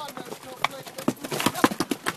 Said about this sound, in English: A dozen mules make their way out of the canyon as we hoof it down the switchbacks.